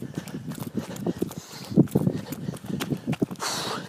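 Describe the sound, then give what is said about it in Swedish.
Running footsteps on a path in total darkness form many irregular soft thuds in a quick, uneven rhythm, moderately quiet against a low background. “Och nu springer jag in på det totalt mörk. Går vägen här, ja.”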